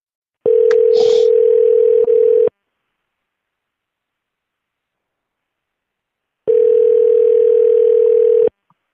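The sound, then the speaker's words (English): A steady, even-pitched telephone tone sounds before a phone call. It plays twice, each time for about two seconds, with a long silent gap between. A brief chirp is heard over the start of the first tone. “we're going to make a brand phone call.”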